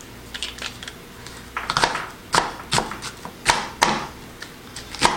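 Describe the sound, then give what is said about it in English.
A blade chops through a very large onion. Light taps come first, then several louder, sharp knocking cuts at irregular intervals. “This is a super large onion here. But yeah, all right, so let's see if we can start slicing through onions.”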